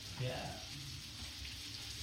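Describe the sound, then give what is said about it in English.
Sizzling from a platter of guinea fowl reshmi kebabs, tandoori tiger prawns, spiced lamb chops and chicken chops, giving a steady, quiet hiss and crackle that continues throughout. “This is the mixture of sizzler. So you have guinea fowl reshmi kebabs. We have a tandoori masala jinga, which are tiger prawns. We have our spiced lamb chops.”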